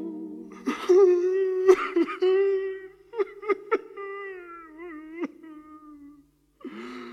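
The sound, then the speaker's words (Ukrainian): A human voice imitates a goat crying bitterly in quavering, bleating wails that waver and break into short bursts. The wails trail off, fall silent, then return as a brief final cry. “Коза гірко заплакав.”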